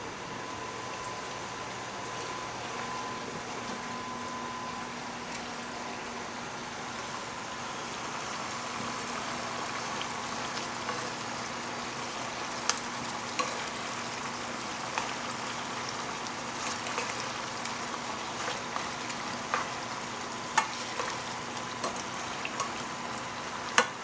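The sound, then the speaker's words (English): Vinegar is stirred into pickles in a pot, giving a steady, even wash of hiss and sizzle with a few faint, sharp clicks scattered through the later part and no talking. “And now I'm gonna go ahead and just add a tad bit of vinegar in there. Maybe about 1/4 cup of vinegar. Let's go ahead and stir this.”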